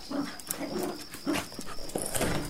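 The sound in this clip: A dog gives a few short vocal bursts over a steady high-pitched background hiss. The dog is being offered bread in a home.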